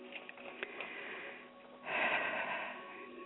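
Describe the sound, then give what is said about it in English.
A deep breath is taken during a guided spiritual cleansing meditation. A soft, airy inhale swells up after about two seconds of faint breathy hiss and is heard alone and quietly. “Now let's take another deep breath.”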